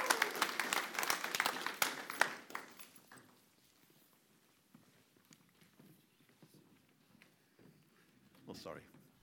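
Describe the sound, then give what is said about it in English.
Audience applause welcoming a speaker, a burst of dense clapping over the first few seconds that quickly dies away, followed by quiet sound and faint talk. “So let's put our hands together. Let's welcome Moraine, shall we? Go, Moraine.”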